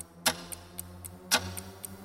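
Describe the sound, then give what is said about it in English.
A clock ticks in an even, steady rhythm, with about eight faint, crisp ticks, two of them noticeably louder than the rest. “Clock is ticking.”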